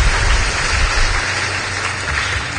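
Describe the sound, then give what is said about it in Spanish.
An audience at a church Mass applauds: a dense, steady wash of many clapping hands that holds at an even, fairly loud level throughout, with no clear voices on top. “Así que haz un fuerte aplauso”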